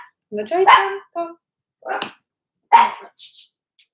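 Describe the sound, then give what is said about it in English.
A small pet dog barks while building work goes on in the flat downstairs: a few sharp, loud barks and yips in an irregular rhythm, separated by short pauses and ending with faint, high whimpers. “there's some work happening in the flat downstairs, and it's very exacerbating for my little doggy. So hopefully he's going to stay calm.”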